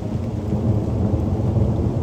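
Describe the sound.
A thunderstorm gives off a steady, heavy low rumble of thunder blended with the dense hiss of falling rain, holding loud and even throughout with no distinct separate claps.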